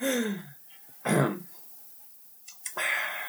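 Someone clears their throat in a few harsh, raspy bursts with short silences between them, each one loud and abrupt.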